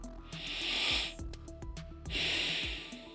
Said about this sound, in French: Allez, on inspire et on expire.